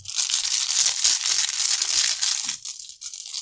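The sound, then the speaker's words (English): A hand rummages in a bag to draw tokens during a tabletop board game, producing steady, loud crinkling and rustling that runs almost unbroken and briefly eases near the end. “I think we play Ward of Radiance here and draw five tokens to try and cancel this Merging Timelines.”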